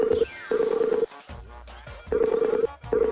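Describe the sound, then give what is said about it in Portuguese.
A telephone line rings as a call is placed: a few pulses of a steady, moderately loud tone separated by short gaps, with a busy textured background between them. “Falando em dinheiro, peraí que eu vou ligar pro senhor K.”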